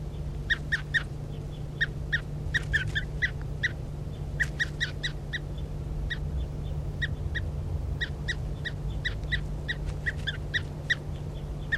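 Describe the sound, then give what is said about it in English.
Calls of a bird being handled: many short, sharp chirps in irregular bursts, some in quick clusters, over a steady low hum. “This is bird 3:35 being handled.”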